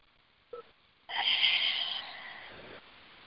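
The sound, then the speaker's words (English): Deep breathing during a guided breathing exercise, in through the nose and out through the mouth: a brief faint sniff, then one long, airy, hissing breath that holds steady and fades out. “Let's take 3 breaths together, okay? Just breathe in the nose and into the belly and out the mouth.”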